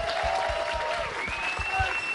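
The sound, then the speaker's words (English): An audience at a Minnesota Vikings fan event applauds steadily, a dense patter of clapping at a constant level throughout, with a faint high whistle-like tone rising partway through. “A round of applause for Zach Lyon, CJ Hamm, and Adam Thielen,”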